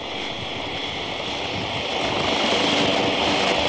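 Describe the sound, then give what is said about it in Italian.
Aircraft engine roar as a plane takes off at the close of a papal visit to San Marino. A steady, broad, loud drone with a high whine on top swells slightly louder partway through, with no voices. “Il decollo, sì, in questo momento.”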